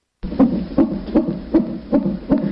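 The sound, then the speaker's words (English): A fetal heartbeat in the womb, as on a Doppler monitor: steady muffled whooshing pulses, about three per second, each a soft low throb over a constant murmuring hum, fairly loud and alone with no voices. “What you're hearing is a baby's heartbeat in the womb, an incredible sound.”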